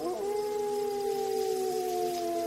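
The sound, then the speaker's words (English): A patrolling Rottweiler lets out a single low, sustained howl that holds a steady tone after a brief rise at the start, fairly faint and alone. “It was as if the dog's ears pricked at being discussed, because he let out another low howl.”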